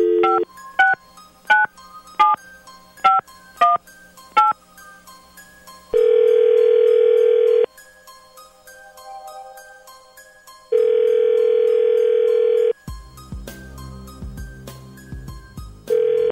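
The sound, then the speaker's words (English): Telephone keypad tones beep rapidly in a string as a random number is dialed, followed by two long, steady, loud tones with a silent pause between them. “Dialing at random.”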